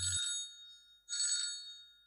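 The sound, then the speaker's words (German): Telephone ringing with an incoming call: two bright electronic ring bursts separated by a short pause, loud and clear with no talk over them. “Oh, warte, ich kriege einen Anruf”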